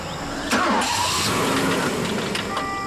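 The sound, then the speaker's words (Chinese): A car engine cranks but fails to catch, with a fuel pump fault; the starter churns in a loud, continuous grinding whir for a couple of seconds, with no voices. “好像油泵有问题，打不着了。”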